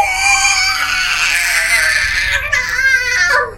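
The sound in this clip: A voice imitates the shrill scream of a mouth full of gnashing teeth set in the palm of a bloated, stumpy-fingered hand. The scream is a loud, continuous, high-pitched wail lasting over three seconds.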